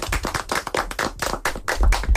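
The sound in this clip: Applause from a small group, a quick, uneven patter of many hand claps at moderate loudness that continues steadily throughout.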